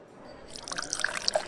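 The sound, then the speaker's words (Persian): A drink being poured into a glass, a soft liquid trickle that grows steadily louder, with bright droplet plinks rising over it toward the end. “نه من برات میریزم.”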